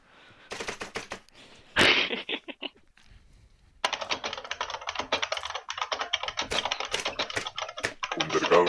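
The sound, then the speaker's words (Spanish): A computer keyboard is pounded with a hammer, giving loud, rapid clattering strikes in dense irregular bursts with a brief quiet gap partway through. “deja de porrear con el martillo el teclado.”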